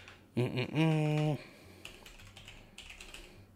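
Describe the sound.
Computer keyboard typing: a few faint, scattered keystrokes follow a brief tonal voice sound at the start.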